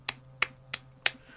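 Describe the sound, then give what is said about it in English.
Five sharp, faint clap-like snaps in an even, steady rhythm imitate the hand-clapping of a deathcore song breakdown. “one of the songs starts with, "This is the sound of 1,000 clapping ass cheeks." And then there's a breakdown with just,”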